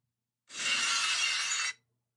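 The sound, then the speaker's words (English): Loud glass shattering, the cue for a WWE wrestler's entrance: one bright crashing burst that holds for just over a second, then cuts off, heard alone. “the glass to shatter and for the crowd to go banana. And Stone Cold comes in for the WWE and starts kicking some ass.”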